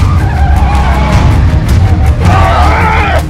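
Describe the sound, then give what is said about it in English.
Engine roar and tire skidding from a pickup truck being floored in a high-speed chase. A loud, steady low rumble runs throughout, with a squealing skid rising over it near the end. “Nick presses the pedal to the metal as Ward shoots out the pickup's windshield.”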